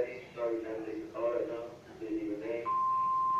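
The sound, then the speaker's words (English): A telephone rings in the background at a parents' house, heard as a steady, high electronic tone near the end while a man talks over it. “That's the phone in the background.”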